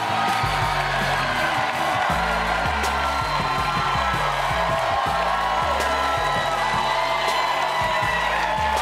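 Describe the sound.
A late-night comedy show's studio audience in New York cheers and whoops in a loud, continuous roar of overlapping voices and shouts that holds steady throughout.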